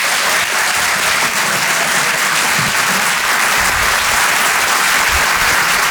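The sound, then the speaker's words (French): Audience applause for a comedian at a French comedy club, loud, dense clapping that holds steady for the whole stretch. “Faites un maximum de bruit, s'il vous plaît, pour Régis Maillot.”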